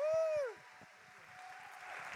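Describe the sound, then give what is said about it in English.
A round of applause from an audience at Westminster Chapel begins right after a brief spoken phrase. The clapping is a fairly faint, continuous patter that builds slightly toward the end. “If you could just start off by giving them a massive round of applause, which we'll start now for Mike.”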